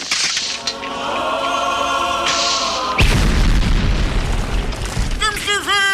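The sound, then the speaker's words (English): A loud hand grenade explosion bursts suddenly after a few seconds of voices, then rolls into a long, heavy rumbling roar, with voices rising again near the end. “Brother Maynard, bring up the holy hand grenade. One, two, five. Please, sir. Three.”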